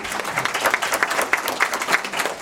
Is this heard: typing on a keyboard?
no